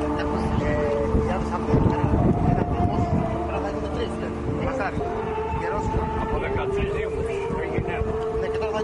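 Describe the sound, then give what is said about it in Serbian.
Steady engine rumble from a small tourist boat on the Ionian Sea, carrying visitors toward a small island while a song plays on board. Sustained melodic tones run over the continuous motor drone throughout. “Brodić na kome se čuje pesma Tamo daleko prevozi turiste na ostrvce Vido”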